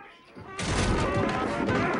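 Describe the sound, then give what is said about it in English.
A shotgun blast smashes plates off a wall during a struggle over the gun: after a brief hush, one sudden loud burst breaks into a sustained, dense crash and clatter that stays loud to the end. “A stray shot blasts plates off the wall.”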